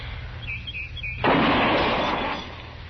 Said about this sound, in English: Yeah, it's hitting where it's aiming, all right. I guess Andy got the kink out of it. He always does. Takes old Andy a month of Sundays to fix a gun, but once it's done right.